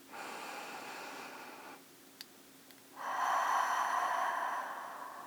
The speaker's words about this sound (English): Rest your hands on your lap and take a deep breath.